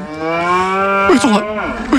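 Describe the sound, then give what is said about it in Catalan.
A farmer's cow, stricken by a toxic yellow fog, lets out a loud, long, low moo with a rich, droning tone. It wavers and bends in pitch toward the end, with no talk. “Un pobre granger veu impotent com les seves vaques cauen desplomades per culpa del núvol tòxic.”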